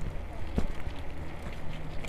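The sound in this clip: Wind buffets the microphone while someone rides a bicycle outdoors, producing a steady, loud low rumble and hiss with one brief thump.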